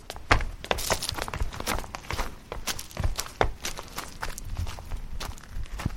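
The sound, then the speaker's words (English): Footsteps descend uneven stone steps into a limestone crypt, many soft, irregular thuds and scuffs at a quiet level, with an occasional heavier footfall. “I'll be taking you down to see the mummies. The steps are a bit uneven. Be careful of the fourth one. It's big.”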